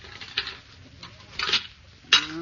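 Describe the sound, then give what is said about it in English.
Pans being washed in a kitchen: a few metallic clinks and clatters, the last one a bright ring, muffled and thin in tone. “Go on, break. Just one last pan to wash.”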